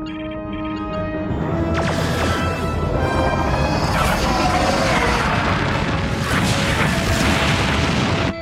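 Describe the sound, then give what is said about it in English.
Sci-fi photon torpedoes fire in a full spread as a loud, dense roar of booming, crashing bursts. After a brief quieter start, sweeping blasts layer over one another and sustain to the end. “Can you get a weapons lock? Affirmative. Photon torpedoes. Full spread.”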